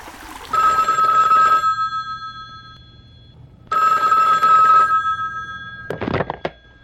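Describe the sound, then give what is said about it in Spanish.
A telephone rings with an incoming call: two long, bright, trilling rings separated by a pause of about two seconds, then a short burst of other sound at the end. “entra una llamada. ¿Quién será?”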